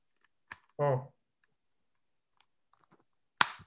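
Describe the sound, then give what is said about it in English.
Helmet buckle straps clicking shut: two sharp snaps about three seconds apart, with a brief voice sound and a few faint ticks between them. “You strap in. You click in. Click another one. I talked over it. Click another one.”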